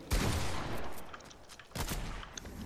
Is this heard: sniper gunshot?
yes

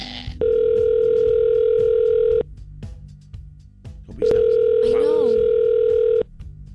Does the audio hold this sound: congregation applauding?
no

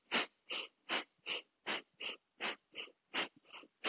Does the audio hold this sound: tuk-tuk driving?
no

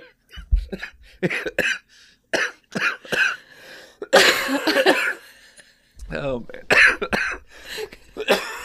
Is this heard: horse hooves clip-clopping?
no

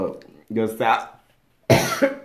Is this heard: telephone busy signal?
no

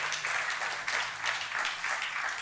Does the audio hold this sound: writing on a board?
no

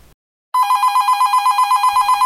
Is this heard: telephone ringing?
yes

